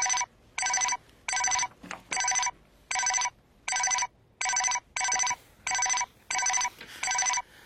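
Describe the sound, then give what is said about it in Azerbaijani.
A telephone bell rings repeatedly as a call comes in: many short, bright, evenly spaced bursts, each about as long as the gap after it, holding a steady pitch and loudness with no talk. “Xeyr, xeyr, əl çəkən deyil bu. Elə bil, mən bu telefonu çıxarmalı olacaqam.”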